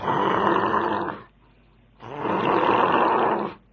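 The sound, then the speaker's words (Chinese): A voice imitates the snoring of a man asleep in his darkened office: two long, rasping, growly snores separated by a short silence, each loud and held at an even level. “周世贵睡着了，打上呼噜了，睡得还挺香”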